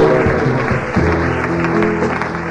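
A church audience applauds and acclaims during worship: dense, continuous clapping holds at a steady level for the whole stretch, with no single claps standing out.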